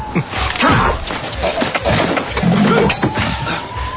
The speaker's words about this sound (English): Gentlemen, we're running a charity event here. We have a permit. You got a permit for the lion?